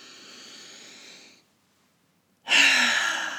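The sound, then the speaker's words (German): A conscious, deep breath drawn in during a guided breathing exercise: two soft, airy rushes of breath separated by about a second of silence, the second fuller and louder, with no talk. “atme mal ganz bewusst ein”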